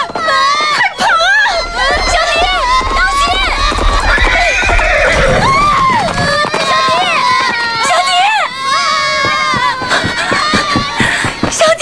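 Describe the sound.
Horses neigh loudly and hooves clop as a group of riders mounts up to move on, with shrill repeated whinnies over a busy crowd and people talking.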